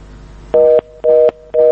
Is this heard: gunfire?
no